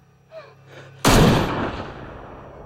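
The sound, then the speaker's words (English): A gunshot in a film scene cracks out as a single sudden, loud blast with a long decaying tail, following a quieter stretch with faint sounds. “spins round on hearing the shot”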